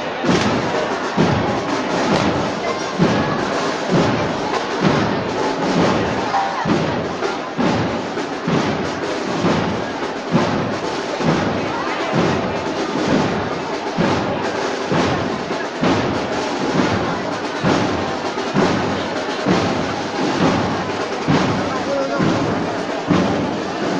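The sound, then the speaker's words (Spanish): Spanish Legion soldiers perform rifle drill maneuvers in a city square during a Holy Wednesday procession in Jaén. Many sharp, heavy thumps repeat in a steady, regular rhythm over the full stretch. “Pasiones Jaén pues los primeros miembros de, la Legión Española que justo antes de esta conexión acababan de realizar un cántico y ahora comienzan a hacer maniobras con el rifle.”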